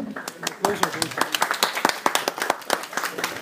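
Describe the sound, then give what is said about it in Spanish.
An audience claps at a live comic-talk event, with distinct individual claps spaced unevenly in a loose rhythm. Voices mix in among the clapping. “Un aplauso, yo les doy un aplauso a todos ustedes por aguantarnos.”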